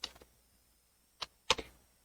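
Computer keyboard keys clack faintly as Yes or No is typed while writing a partition table to a USB stick, a quick cluster of three clicks, a lone tap, then two more close together.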